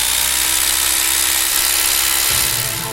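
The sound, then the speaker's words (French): Electric mixer whipping egg whites with a little salt for a chocolate cake, a loud, steady motor whir with a constant whine that runs the whole time and shifts slightly near the end. “Donc les blancs, tu te les montes avec un peu de sel, un batteur.”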